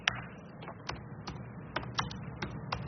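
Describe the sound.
Keyboard typing as notes of a conversation are written down, with irregular, crisp keystroke clicks arriving in small bursts over a faint, low background hum.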